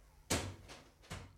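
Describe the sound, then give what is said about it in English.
Two loud, sharp bangs of a door being slammed shut as someone leaves the room, the first at about a third of a second and the second near the end, with a faint knock between them and no voices. “Now remember to slam the door”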